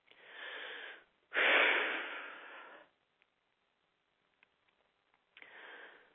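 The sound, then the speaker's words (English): A big, deep breath: a long airy rush, then a louder and fuller breath that slowly fades. A short quiet stretch with a few faint clicks follows before another breath begins. “And take a big deep breath.”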